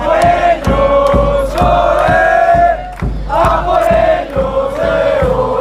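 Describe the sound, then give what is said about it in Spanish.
A street crowd of football fans chants loudly and continuously before Spain's final, where the team hopes for its second star. Regular beats punctuate the chanting, with a short dip in the middle before the voices surge again. “la Peña de la Furia Roja, y ya podéis escuchar cómo está el ambiente en estas calles a punto de que llegue esa final en la que España quiere colocarse su segunda estrella. Así suena.”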